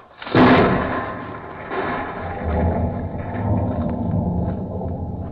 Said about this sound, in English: Okay, everybody, clear. We're blasting!